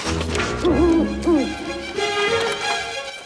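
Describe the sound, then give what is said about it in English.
An owl gives a few short, wavering hoots in quick succession over a steady low rumble, followed by fainter hooting calls. “The owl looks down on Dennis”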